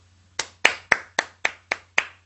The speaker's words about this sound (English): To applaud or to clap is to put your hands together